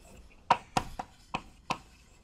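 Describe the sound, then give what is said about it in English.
Handwriting during a lecture: five sharp taps of a writing tool striking a surface, crisp and fairly faint, coming in quick succession with short, uneven gaps. “So it's always to sample these kind of configurations as long as they have the mean in the variance. So let me write that.”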